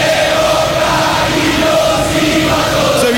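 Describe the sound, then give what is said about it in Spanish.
Boca Juniors fans chant in the stadium as their team takes a corner during a football match. The massed voices form a loud, sustained roar with a steady sung tone held throughout. “desde la punta izquierda se levanta el aliento del público de Boca, arco del Riachuelo, escúchalo, escuchate si sos de Boca.”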